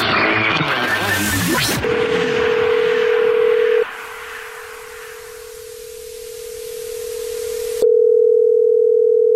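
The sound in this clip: Telephone tones sound as a call is placed. A short noisy burst gives way to a steady single-pitch dial tone that holds for several seconds with small breaks, unbroken by talk.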